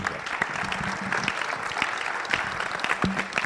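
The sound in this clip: Warm applause from a church audience welcoming a speaker, a steady wash of many hands clapping at moderate volume throughout.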